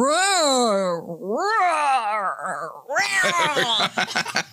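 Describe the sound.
A person voicing a cat's meow in a deepened, mannish voice: two drawn-out, wavering meows that swoop up and down in pitch, followed by bursts of laughter.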